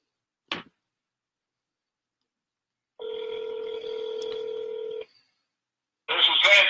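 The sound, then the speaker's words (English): A telephone call being placed: a single sharp click, a pause, then a steady electronic ringing tone lasting about two seconds. After a short gap, a louder noisy burst follows at the end. “It's dialing.”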